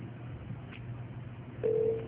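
A phone line connects for the next caller in a radio call-in: the low, steady hiss of an open line, then one short steady beep near the end.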